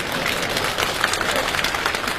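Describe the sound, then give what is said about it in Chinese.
Audience applause at a live comedy stage show: a steady, dense wash of clapping that holds an even level from start to finish. “鼓掌，拿去。”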